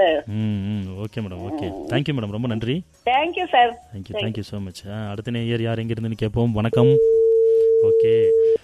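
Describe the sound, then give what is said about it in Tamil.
A steady single-pitch telephone tone after a dropped call holds for about two seconds at the end, following a stretch of talk. “அழைப்பு கட்டாயிருச்சு.”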